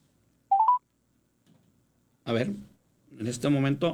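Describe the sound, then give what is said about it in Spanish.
Telephone keypad tones sound as a call is redialed: a quick burst of three short beeps, each a step higher, followed after a pause by a person talking. “A ver, vamos a volver a marcar. A nuestra compañera.”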